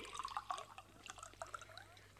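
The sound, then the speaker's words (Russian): Water being poured into a bottle gives faint, irregular gurgles and small splashing bursts, with bubbly liquid sounds coming in uneven pulses throughout. “Так, нальем теперь в бутылку воды.”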